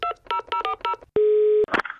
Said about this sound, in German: Wir rufen sie einfach mal an.